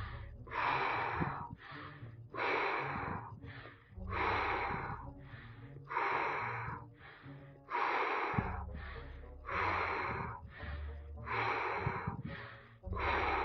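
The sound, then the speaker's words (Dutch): Deep rhythmic breathing during a guided shamanic breathing meditation: forceful airy breaths repeat in a steady tempo, each deep inhale followed by a long exhale, over many cycles with no speech. “Adem door. Op tempo, diep in, lang uit.”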